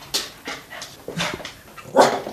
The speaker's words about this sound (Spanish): Viens, chien. Oui, t'es beau.